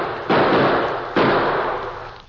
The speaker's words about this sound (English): Is that someone moving over there? Where? See? Next to the house. It is. Let him have it. We got no friends around here. Fire on him.